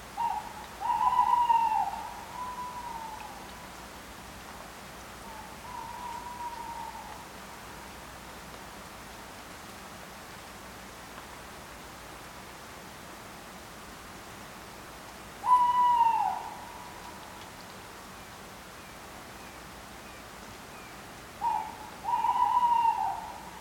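Tawny owl hoots come in a few spaced bouts over a steady background hiss. Each is a wavering, mid-pitched call; some are clear and loud, others faint, with long quiet stretches between them.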